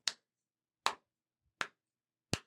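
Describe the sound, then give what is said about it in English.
Four crisp hand claps keep time to a playground rhyme. They are sharp and evenly spaced, and each one sounds alone against silence. “I'm not going to skip, but I'll clap along, and I'm sure you can picture it.”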